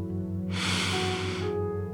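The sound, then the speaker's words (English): A single slow, deep inhalation during a guided meditation, a soft hissing breath lasting about a second over a steady low sustained drone. “So take a deep breath in, my friend.”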